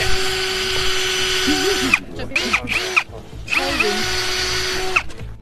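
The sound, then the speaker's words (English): High-pitched power-drill whine as a drill bores into a rhino horn to insert radioactive chips in an anti-poaching pilot project; a steady, loud drone runs throughout, briefly broken up in the middle. “that is the sound of radioactive chips being placed in a rhino horn to prevent rhino poaching.”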